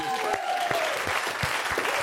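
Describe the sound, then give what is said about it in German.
Audience applause at a live show, steady dense clapping that holds at an even level throughout, with a voice and a faint tone partly audible underneath. “Großen Applaus.”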